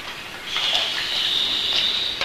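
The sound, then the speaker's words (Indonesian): Water is poured or runs for children mixing it into sand as they play, a steady, fairly soft stream of trickling water lasting about two seconds with no talking. “Aku ambil air dulu ya.”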